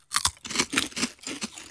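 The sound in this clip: Crunching of potato chips being bitten and chewed during a tasting, a quick run of several crisp, dry crunches close together with short gaps between them.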